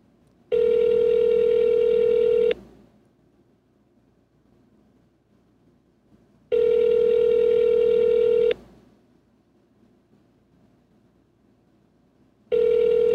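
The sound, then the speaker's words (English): Telephone ringing heard by the caller during an outgoing call: two loud two-second rings separated by about four seconds of near silence, with a third ring just beginning at the end. “Can you cut out the ringing part?”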